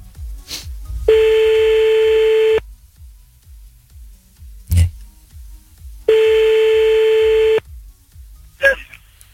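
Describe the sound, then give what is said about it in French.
A telephone calls someone back: two long, steady ringback tones of about a second and a half each, separated by a pause of several seconds, with faint clicks in the gaps. “Bon, on va la rappeler, c'est parti.”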